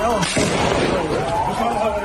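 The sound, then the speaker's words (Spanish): Gunshots are fired into the air by Israeli soldiers near a delegation of diplomats in the West Bank. One loud, sharp blast comes near the start, followed by a dense, rumbling, noisy tail. “El ejército israelí asegura que sus soldados han disparado al aire porque esos diplomáticos europeos y de otros países, miembros de una comitiva oficial, se han salido de la ruta autorizada.”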